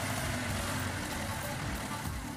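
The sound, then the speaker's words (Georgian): Street traffic in Ethiopia, a mix of cars of every year and model with noisy engines. It makes a dense, continuous rumble and roar with no break. “ხმაურიანი ძრავების და აუცილებლად შავი გამონაბოლ ქვის ნამდვილი აღლუმია.”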